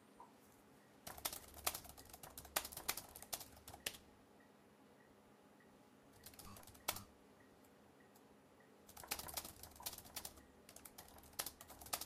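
Faint typing on a computer keyboard comes in three bursts of quick, irregular keystrokes separated by quiet pauses, over low steady background hum.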